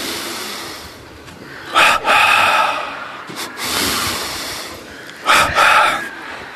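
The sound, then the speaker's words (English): A group breathing in and out together: several broad, airy swells of many breaths rise and fall in unison, with quieter gaps between the louder rushes. “let's inhale, tense the body in a wave. Exhale, relax in a wave. Couple more times.”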